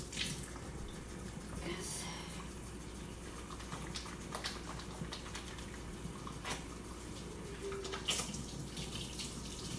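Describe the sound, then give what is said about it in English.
Running tap water as hands are washed after handling raw eggs, a faint, steady stream with irregular splashes throughout. “It's raw eggs, so I'm gonna wash my hands.”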